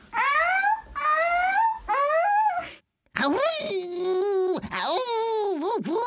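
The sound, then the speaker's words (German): A harbour seal pup howls: three short, rising, babylike wails come first, then a longer, wavering cry that dips and swoops in pitch, loud and clear. “Vielleicht heißen die Heuler, weil die nicht so quietschen wie halt die Erwachsenen, sondern eher heulen. Das hört sich so an, wenn ein Seehundbaby ruft.”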